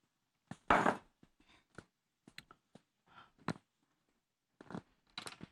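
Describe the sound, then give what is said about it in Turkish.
Wet squelching of hands kneading dolma filling mixture, a series of irregular soft, sticky bursts separated by brief pauses, fairly quiet and without talk. “Bakın bütün malzemeler, her şey hazırlandı. Güzelce yoğuruyoruz.”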